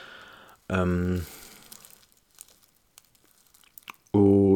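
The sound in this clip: Crinkling and tearing of packaging as a computer microphone with a bluish glow and pop filter is unpacked and set up. Scattered faint rustles and crackles sit between stretches of talk at the start and end.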